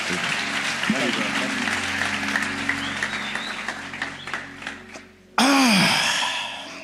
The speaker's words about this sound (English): One more time, put your hands together and welcome.